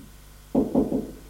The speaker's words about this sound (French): Elle frappe.